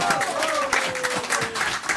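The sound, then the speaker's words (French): Crowd applause rises as a steady wash of clapping. A drawn-out tone glides downward in pitch through the first half, and the clapping continues at a fairly even, moderately loud level. “Applaudissements.”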